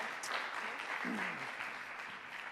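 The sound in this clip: Audience applause fills a church gathering, a steady dense wash of clapping that holds at an even level throughout, with a voice briefly audible over it.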